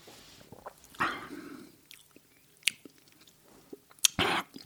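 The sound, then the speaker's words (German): A sip of wine slurped without rinsing, with a couple of short wet slurping bursts and soft mouth noises between them, fairly faint, with no talk. “Ich versuche noch einen Schluck. Und zwar ohne Spülen, ohne alles.”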